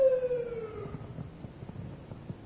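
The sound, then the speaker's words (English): A siren passing by: a single wailing tone that slides downward in pitch and fades out within the first second, leaving a low background rumble. “now that the siren's gone by”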